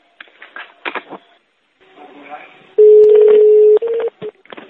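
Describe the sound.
Telephone dialing tones sound as a call is connected: one long steady electronic tone, then a shorter one, after a stretch of speech and rustling.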